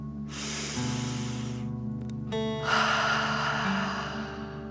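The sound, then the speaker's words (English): A deep breath in and out during a guided breathing exercise: one long airy inhale, a short pause, then a longer, slightly louder exhale through the mouth, with soft sustained tones underneath and no talk. “Ready? Okay, deep breath. In and out.”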